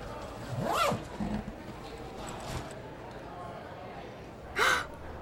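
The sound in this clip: A bag's zipper is pulled open during a magic trick. Two quick, rasping zips sound, one near the start and one near the end, with soft breaths and faint rustling between.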